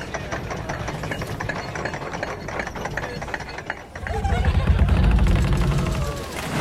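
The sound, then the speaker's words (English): Ride on the Loch Ness Monster roller coaster at Busch Gardens in Williamsburg, Virginia: a rattling mechanical clatter and rumble that gives way midway to a heavier, louder, deep roar. “What you've just heard is a very real memory for me. Of a trip to Busch Gardens in Williamsburg, Virginia, to ride the Loch Ness Monster,”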